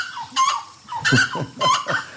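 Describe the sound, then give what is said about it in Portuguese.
A seriema bird calls in three loud bursts of honking, yelping notes, each group a rapid run of harsh, strident cries separated by short gaps. “Até a Sariema tá cantando, seu amado.”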